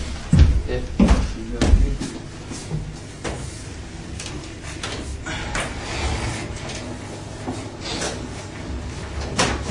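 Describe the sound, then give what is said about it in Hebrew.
Windows slide and clunk as they are opened in a stuffy room. A few sharp knocks and scrapes come early and softer rattles follow, while people talk throughout. “עכשיו, אני גם חושב שכדאי אולי לפתוח את ה... חלונות, כי פשוט אנחנו נחנקים.”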